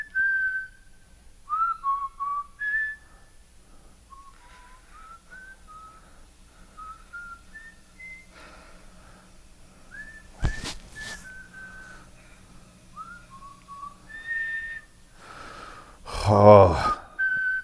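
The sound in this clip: Whistled melody made of many short, bright notes rising and falling in a loose tune. The notes run steadily over a quiet background, with a brief loud burst of noise near the end.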